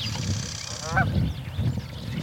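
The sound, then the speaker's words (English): Geese honk in open country. The calls are a few short, nasal honks, fairly quiet over a low, steady rumble. “These birds were hitting in the mid-40s on our decibel meter.”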